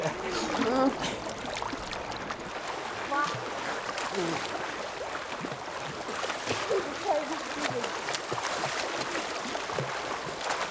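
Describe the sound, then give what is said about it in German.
Children splashing in water: continuous, noisy splashing and churning runs throughout, with voices talking over it. “ihr sollt nicht so planschen.”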